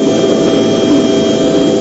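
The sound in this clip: A medically equipped helicopter serving pilgrims at Arafat: a loud, steady engine roar with a rushing turbine whine and deep rumble, continuous and unchanging throughout.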